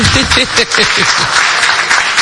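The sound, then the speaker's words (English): Audience applause for the women at a gathering: dense, steady clapping that holds at a loud level throughout, with some voices mixed in early on. “Let's clap for our women here. You don't clap for yourselves.”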